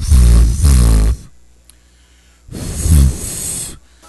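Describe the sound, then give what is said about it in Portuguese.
Someone blows air hard into a microphone in two long, loud, breathy blasts with a rough, snore-like rasp, separated by a quiet pause. “Aí chega pertinho do rádio, eu vou soprar o cabelo.”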